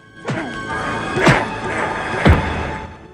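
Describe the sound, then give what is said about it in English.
Three heavy, dull thuds of a heel kicking at a ship's wooden mast, spaced about a second apart, each a loud, blunt blow over a low background. “He starts to kick at the mast with a heel.”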